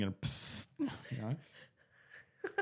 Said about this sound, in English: That was a yawn, that wasn't it?